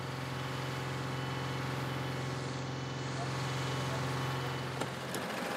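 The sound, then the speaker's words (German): The engine of a 13–14 tonne special vehicle stuck in soft sand on a beach, recovering a torpedo warhead, drones low and steady, faint and continuous, with no clear changes. “Aber ohne kriegen sie den Torpedo-Gefechtskopf nicht raus. Hat er alle Sperren an? Alle Sperren an? Das Spezialfahrzeug wiegt zwischen 13 und 14 Tonnen.”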